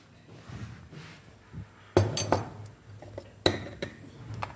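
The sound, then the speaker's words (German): A teaspoon works carob coffee powder through a sieve, giving a few light taps and scrapes broken by two sharper, louder clinks against the sieve and bowl. “Also ein Teelöffel Karo-Kaffee und jetzt kommt wieder das mit dem Sieb zum Einsatz.”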